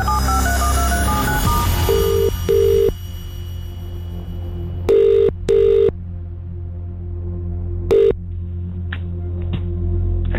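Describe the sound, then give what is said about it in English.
Telephone keypad tones open with a quick run of short beeps at varying pitches. A loud, steady ringing tone follows in repeated bursts with gaps between them, and faint higher beeps flicker near the end. “Let's dial.”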